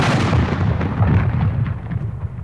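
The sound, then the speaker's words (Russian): Cannon fire at fields of ripe grain, heard as a loud, continuous rumbling barrage where the blasts blur into one dense, low roar with no clearly separated shots. “Когда у них созревали хлеба, они подвозили к полям пушки и выстрелами срезали хлеб.”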